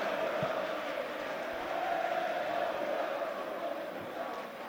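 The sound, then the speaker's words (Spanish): A football crowd at the Rico Pérez stadium chants to urge on Hércules during a match they are losing. A steady, massed drone of voices runs at a moderate level throughout without clear breaks. “Pues ahí el público del Rico Pérez apelando a la épica, ¿no?”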